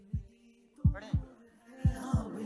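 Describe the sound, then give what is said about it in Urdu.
A fast heartbeat sound effect: deep, low thumps in a quick paired lub-dub rhythm, five beats in all, over a steady low hum. “دل کی دھڑکن تیز ہے، 10 second میں فیصلہ ہو جائے گا”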